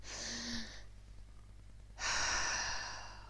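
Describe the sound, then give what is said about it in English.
A big, deep breath in and out: one long airy inhale, a quiet pause, then a longer, louder, breathy exhale that slowly fades. “big deep breath in and out”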